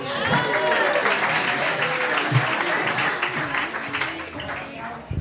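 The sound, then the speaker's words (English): Comedy club audience at The Stand applauds a guest comedian coming to the stage: loud, sustained clapping mixed with cheers and voices, easing off toward the end. “All right, please welcome a special guest, give it up for Mike Friedman.”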